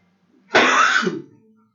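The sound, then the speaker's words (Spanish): A single short, dry cough bursts out loud and raspy, then fades quickly, heard alone without talk. “Perdón, hermano, que tengo una tos reseca horrible.”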